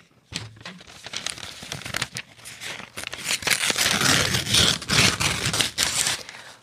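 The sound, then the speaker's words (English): Wrapping paper crinkles, rustles and tears as a gift is unwrapped. The crackling starts sparse and grows denser and louder toward the end. “Hey, now for your gift. You got me a gift, too? Yep, open it, open it.”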